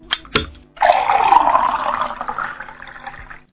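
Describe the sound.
Plain drinking water is poured for a mother who asked for a drink. A couple of short clicks come first, then a steady, continuous stream of water runs for about three seconds and tapers off.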